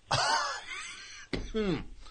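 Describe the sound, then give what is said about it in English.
A person's lingering cough, present ever since an accident, comes as two harsh, voiced bursts: the first drawn out and groaning, the second sharper and falling in pitch. “Can't get rid of that cough. It's a cough.”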